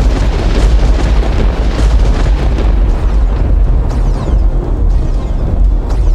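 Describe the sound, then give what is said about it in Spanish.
American artillery fire during the siege of a mill: a loud, dense, continuous roar of booming and rumbling with no clearly separated blasts, heard alone throughout. “La artillería norteamericana comenzaba el asedio al molino”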